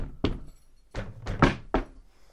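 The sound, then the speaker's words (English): Knocking on a door into a basement pub, played as a familiar pattern: five hollow thuds in an uneven rhythm, a long gap after the first and then a quicker run, without any talking. “Ah, the knock that everyone knows. From a child onwards.”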